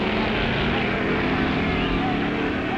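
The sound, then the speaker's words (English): A/Gasser drag racing car engine in a loud, steady, unbroken roar with a deep throaty rumble throughout. “And there goes his brother Phil and his A. Gasser, affectionately called Grandma.”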